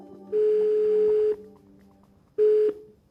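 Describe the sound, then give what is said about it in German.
Telephone ringback tone on an outgoing call to the wife of a Russian soldier: a steady mid-pitched tone lasting about a second, a pause, then a second burst cut short, with faint background hum and no talk. “Anruf bei der Frau eines russischen Soldaten.”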